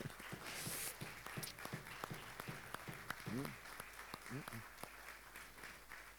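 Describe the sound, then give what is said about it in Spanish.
Audience applause in a church: steady clapping from many hands fills the whole stretch, with a voice briefly rising above it. “Así que yo te pido que des un aplauso también al Señor.”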